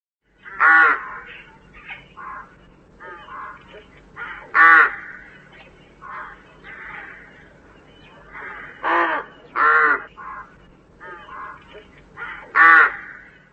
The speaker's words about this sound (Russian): Грач.